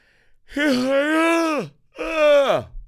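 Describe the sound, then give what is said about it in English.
A big yawn voiced as a long, drawn-out groan that drops in pitch at the end, followed after a brief gap by a shorter second voiced stretch that also sinks downward. “That was a crazy yawn.”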